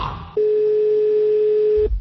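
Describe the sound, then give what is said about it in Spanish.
An outgoing telephone call gives one long ring of its ringback tone, a steady, clear mid-pitched electronic tone lasting about a second and a half. “Una llamada que es la llamada al líder.”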